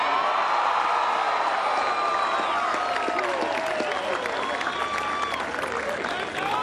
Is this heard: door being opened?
no